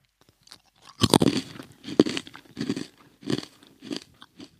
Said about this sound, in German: Okay, jetzt, jetzt beiße ich mal rein.